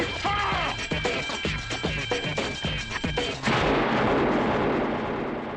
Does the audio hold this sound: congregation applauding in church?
no